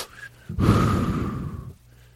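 A deep breath drawn in one long, loud, breathy rush of a bit over a second, alone, with quiet background before and after.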